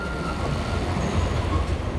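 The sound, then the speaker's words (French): A cart running on rails gives a steady rolling rumble and clatter with a faint, thin squeal of wheels above it, holding an even level throughout. “Un chariot vient de s'arrêter tout près de nous.”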